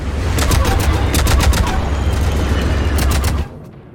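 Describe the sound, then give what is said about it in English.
Video game gunfire as infantry fight and shuttles shoot, with Makos in the battle: dense, rapid overlapping shots and bursts at high volume that run steadily, then cut off abruptly just before the end. “All right, we see infantry fighting. There's Makos. A lot of people buying it. shuttles are shooting.”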